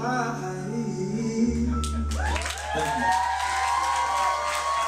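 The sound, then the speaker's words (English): Loud cheering and whooping from a live show audience, a dense, steady wash of crowd noise that takes over after the first couple of seconds and holds to the end. “So the crowd just sounds so into it”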